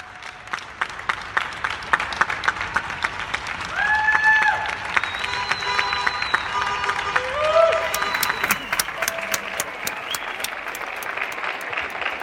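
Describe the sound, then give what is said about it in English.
Applause for NHS health workers, many scattered hand claps crackling continuously, with a couple of brief tonal sounds rising above the clapping midway. “That's a sound which is becoming strangely familiar to people who work in the NHS and health services everywhere. Sometimes they find they're just being applauded spontaneously.”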